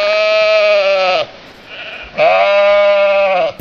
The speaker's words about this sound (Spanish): ¿Quién no reconoce el balido de una oveja iraní en el celo bajo las gélidas noches de invierno?